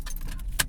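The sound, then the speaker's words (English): Keys jingle in a hand inside a car just after its engine is switched off: a short, bright metallic jangle that peaks briefly over a steady low vehicle rumble. “You sound the keys jingling in my hand.”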